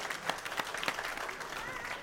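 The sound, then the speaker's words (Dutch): Brief applause from a small group, a faint, steady patter of clapping with a few slightly sharper claps standing out. “Hey, applaus.”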